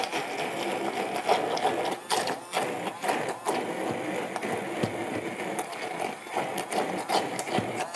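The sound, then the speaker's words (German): A blender motor purees braised parsnip and pepper with a loud, continuous high-revving whir whose texture wavers slightly as the load shifts, steady from start to finish. “Gut, ich habe die jetzt hier und jetzt gebe ich die mal zum Pürieren. Ich lege los.”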